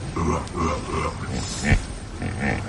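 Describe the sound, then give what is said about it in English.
Hippopotamuses at Murchison Falls give a series of deep, grunting calls, honking and rhythmic, with several short bursts in a row. A sharper, louder grunt stands out midway through the series. “Quite a few hippos at Murchison Falls. They make a pretty wonderful noise, don't they?”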